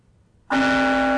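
A bell tolls once, a sudden clear strike after near silence that rings on as a loud, steady, resonant tone with several sustained overtones.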